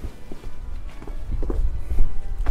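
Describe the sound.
Footsteps of someone walking along a street, a series of fairly steady, dull thuds with a few heavier footfalls toward the end, heard alone without talk.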